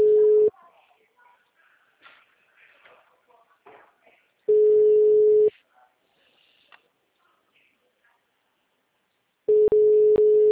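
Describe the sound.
Ringback tone of an unanswered phone call: three steady single-pitched tones, each about a second long and spaced evenly apart, with faint sounds in the quiet gaps between them.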